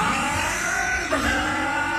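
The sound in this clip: A motorcycle engine revs in a steady, loud, noisy drone that holds at a fairly constant level throughout, with one brief dip near the middle and no voices over it.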